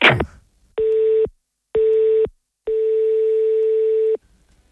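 Ringback tone of a telephone ringing unanswered on the line: three steady electronic tones, two short and one much longer, separated by silences. A brief noise burst comes just before the first tone.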